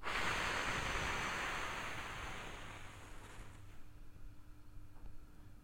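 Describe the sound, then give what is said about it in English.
Long breathy exhale during a group breathing exercise at a workshop in Sweden: a loud, airy whoosh that slowly fades over about three seconds, followed by near quiet. “Quick inhalation, exhale for 5. Quick inhalation. Exhale for seven.”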